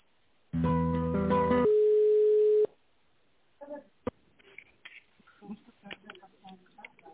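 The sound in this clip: A telephone line tone plays while a call is transferred: a rich buzzing chord for about a second, then a single steady pure tone for another second, followed by faint clicks and brief voice fragments.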